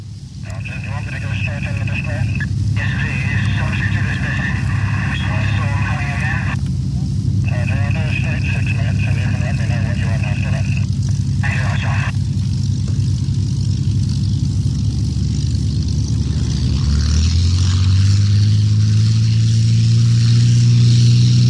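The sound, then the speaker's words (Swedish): Spitfire Mk VC aircraft engine starting: a loud, continuous mechanical drone with bright whining tones that cut in and out, then a deep engine note that swells strongly over the final seconds. “Nu ska vi lyssna till en start med en Spitfire 5C.”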